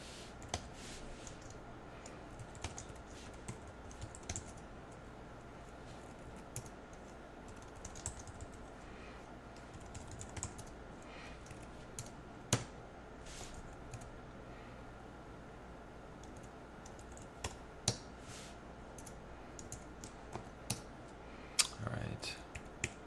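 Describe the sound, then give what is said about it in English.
Keys clack on a computer keyboard as someone types entries into a form. The keystrokes are sparse, quiet and irregular, with scattered sharper taps over a low steady background hum. “So I'm going to type in 74, and then I click”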